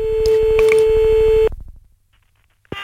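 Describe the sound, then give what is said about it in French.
Telephone line tones as a call is placed: a steady tone under a fast, regular pulsing that cuts off abruptly, then fading ticks and one short beep near the end. “Donc, on va faire le premier appel maintenant.”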